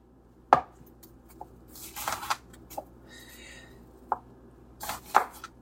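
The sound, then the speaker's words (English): A sharp knife slices across the root end of an onion on a cutting board, making several crisp, separate cuts at uneven intervals. The cuts are fairly quiet, with soft clatter between strokes. “Now over here, I have 1 onion and I'm going to just slice it across the roots.”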